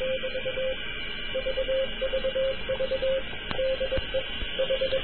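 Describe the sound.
A Morse code (CW) signal, received by radio and decoded through a Sound Blaster sound card, plays as a steady mid-pitched tone keyed on and off in quick dots and dashes over constant hiss, with a couple of sharp clicks.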